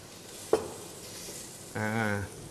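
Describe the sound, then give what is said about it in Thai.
Squid and shrimp stir-fried with garlic in a pan: a single sharp clack, then a short burst of harsh, grating scraping as the food is tossed. “ใส่หมึกกับกุ้งลงไปคลุกเคล้ากับกระเทียมนะครับพริกกระเทียมเส้นหมี่นะครับ”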